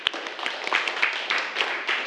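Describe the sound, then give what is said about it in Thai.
Students clapping for a classmate, a short burst of scattered, moderately loud applause with uneven hand claps running throughout. “ขอบคุณมากครับอ่ะปรบมือเพื่อนหน่อย”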